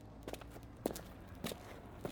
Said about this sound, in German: Wir gehen ein paar Schritte nach rechts, sodass wir es ganz sehen können.